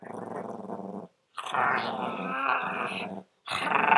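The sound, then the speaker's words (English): A person imitates a growling dog with their voice: three rough, throaty growls separated by short silences, the middle one longest and the last cut off. “Well, that was our dog impression. That was absolutely perfect.”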